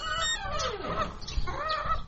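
Chickens cluck in two short bursts of quick, throaty, uneven calls separated by a brief pause, moderately loud and with no talk over them.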